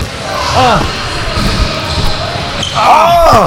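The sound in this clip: A basketball bounces on a court during a pickup game, giving a few dull thumps while people talk and call out over them.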